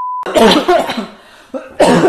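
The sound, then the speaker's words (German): Two video game characters cough in loud, rough, hacking bursts. A short steady beep comes first, then a long coughing fit, a brief quieter rasp and another cough. “Sehr authentisches Husten von beiden Protagonisten.”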